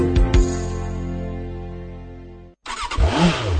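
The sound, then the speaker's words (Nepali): A Bangladesh-made Runner motorcycle engine hums with a steady droning tone that slowly weakens, cuts out for a moment, then revs in loud bursts that rise and fall in pitch. “आइपुग्यो बङ्गलादेशमा निर्मित runner मोटरसाइकलहरू Nepali बजारमा आइपुग्यो।”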